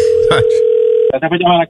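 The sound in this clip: A steady telephone ringback tone from a call placed to a store holds one even pitch for about a second, then stops as a voice answers and people begin talking.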